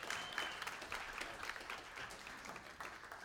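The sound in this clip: Audience applause welcomes a pastor to the platform at a church service: a steady, soft wash of many hands clapping together, with no voices standing out.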